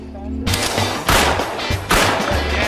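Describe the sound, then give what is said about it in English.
Gunshots from a gun being fired: three loud, sharp blasts spaced roughly a second apart, each with a broad, ringing tail that fades slowly. “he started shooting that gun”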